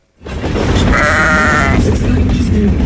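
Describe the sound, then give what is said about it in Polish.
A sheep in a diaper bleats on a Pendolino train running from Kraków to Warsaw. One drawn-out bleat rises over the loud, steady rumble of the moving train. “W Pendolino jadącym z Krakowa do Warszawy jeden z posłów PiS nagrał owcę. Chodziła sobie po pociągu ubrana w pieluchę.”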